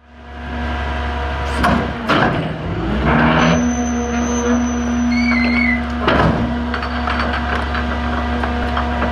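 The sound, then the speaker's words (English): A garbage packer truck in San Francisco loads and compacts street debris such as cardboard and bags. A steady, loud, low engine drone runs throughout, with a high mechanical whine and a few heavier clunks and scrapes. “This is the sound of the packer as they load debris into the back of the packer from different communities throughout San Francisco.”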